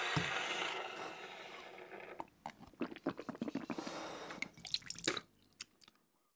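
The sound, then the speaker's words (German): Water rinsing: a broad rush of running water fades over the first couple of seconds. Many irregular drips and light splashes follow, then it goes quiet. “So, und jetzt bitte spülen.”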